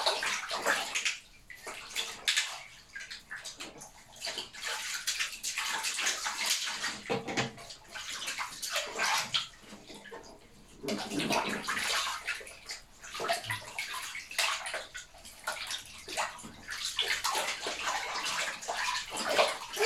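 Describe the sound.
Water splashes and sloshes as a child is bathed in a tub. The bursts come irregular and fairly loud, rising and falling with brief gurgles between, and no one speaks.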